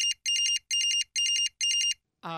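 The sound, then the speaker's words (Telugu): A phone ringtone rings during a staged drama scene, sounding five short bursts of rapid, high-pitched electronic warbling separated by brief gaps. A short, differently pitched harmonic sound follows at the very end. “నాకు phone వస్తుందండి, కాస్త మాట్లాడుకోవచ్చా?”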